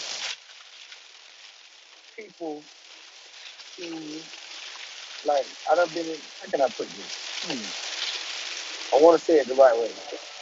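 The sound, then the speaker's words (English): Rain falling outside, a soft steady hiss running through the whole stretch beneath intermittent bursts of someone talking. “it's raining out here, y'all.”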